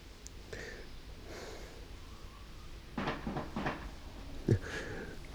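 Carpets are beaten outdoors in a spring garden: a few dull, muffled thwacks come in a short cluster and are followed by one sharper knock, all fairly faint against a steady background hiss.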